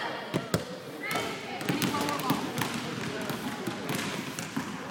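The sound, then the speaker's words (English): Basketballs bounce repeatedly during a basketball tryout for players with disabilities, with sharp thuds at an uneven rhythm under steady chatter and voices from people nearby. “So this is his basketball tryout that we're at right now.”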